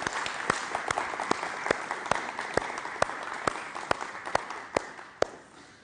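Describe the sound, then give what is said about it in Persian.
An audience claps in honour of a family. The dense applause is steady, with scattered louder claps standing out, and it eases off toward the end. “خواهش میکنم ازتون به افتخار این خانواده یه دست بزنید”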